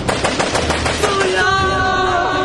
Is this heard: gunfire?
yes